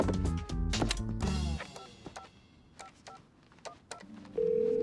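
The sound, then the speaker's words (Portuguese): Telephone being dialed to call a help line: a quick run of electronic beeping tones, then a steady held tone at the end. “Ligue para a nossa linha. E vou ligar mesmo.”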